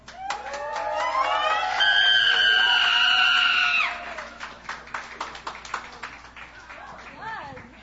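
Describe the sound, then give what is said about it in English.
Audience members scream and cheer at the Hideaway's Sunday night songwriter stage: loud, sustained high-pitched screaming for about four seconds, then dropping to quieter, scattered bursts of crowd noise. “Woohoo! We got some screamers! Some Rider fans, for sure.”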